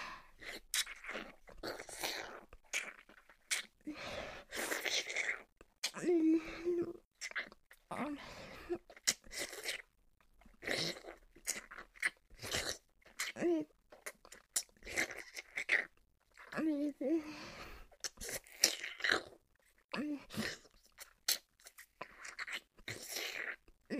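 Close, wet mouth sounds of ASMR ear eating on a listener's ear: many licks, smacks and nibbling crunches follow one another in an irregular, busy stream for the whole stretch, with brief breathy pauses.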